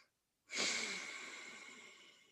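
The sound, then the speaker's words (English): One deep breath blown out during a stress-relief exercise: a single long, airy exhale that starts strongly after a brief silence and slowly fades. “Take a nice breath. Blow it out.”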